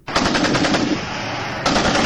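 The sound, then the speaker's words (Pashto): Heavy weapons fire in rapid automatic bursts during fighting at Kurram on the Pakistan–Afghanistan border, a loud rattling stream of closely spaced shots that eases briefly midway before another burst cuts in sharply. “د غټ وسلو دا ډزې په کورما کې پر پاک افغان پوله یو ځل بیا د شروع شوې جګړې دي”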